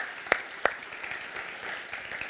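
Applause from a church audience welcoming guests during a morning service. A few sharp claps stand out over a soft, steady patter of clapping, and the whole sound stays fairly faint.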